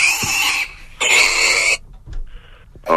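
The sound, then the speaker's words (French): A person imitating a sow's grunting, making harsh, noisy, squealing grunts: two long rough bursts, then a shorter, softer one, and the start of another at the end. “j'aimerais bien que tu fasses le bruit de la truie. Allez, vas-y, fais le bruit de la truie.”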